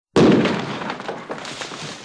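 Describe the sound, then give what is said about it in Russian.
A tear gas grenade explodes on a floor: a sudden, loud burst followed by a noisy, crackling tail that gradually weakens over about two seconds. “Вторая слезоточивая граната взорвалась на полу.”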